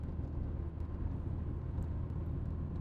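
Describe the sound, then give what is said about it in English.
Steady low engine drone and road rumble from a car cruising in fifth gear at highway speed, about 60 to 70 mph and over 2,500 RPM, a dense, even noise with no voices. “I'm at 40 miles an hour. I'm over 2,500 RPMs right now. Just shifted into fifth gear.”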